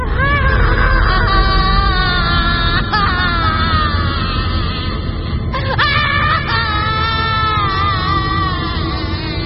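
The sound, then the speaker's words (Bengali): A woman screams and wails in pain with several wavering, high anguished cries that continue throughout over a constant dense noisy background. “কয়েক মিনিটের মধ্যে ইয়াসমিনের তীব্র আর্তনাদ শোনা গেল এ ঘর থেকে।”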